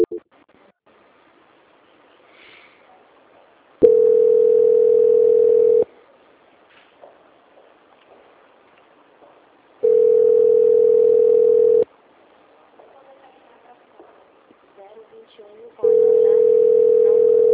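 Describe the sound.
A phone line plays a steady tone during a call transfer, sounding three times in two-second bursts separated by quiet stretches. Faint, low background noise fills the gaps.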